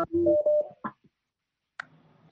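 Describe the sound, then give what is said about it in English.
Electronic tones of an incoming phone call on a call-in line: a short burst of buzzy tones, a brief blip, then after a silent gap a fainter tone that fades out. “I think there's a phone coming in.”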